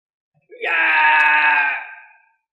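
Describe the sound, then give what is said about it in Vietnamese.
A man screaming in agony: one loud, harsh, drawn-out cry that swells quickly, holds steady and trails away within about two seconds, heard alone. “Gã kêu thảm thiết, làm cho một vị cao thủ hoàng đạo hét thảm như vậy”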